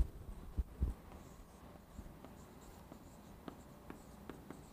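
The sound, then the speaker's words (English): Soft scratchy strokes of writing on a board, many short marks in an uneven rhythm, preceded by a few heavier knocks at the start, faint and alone without talk. “Why did you write that on the board?”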